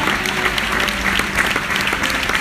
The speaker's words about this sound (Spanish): Dale ese aplauso a Él.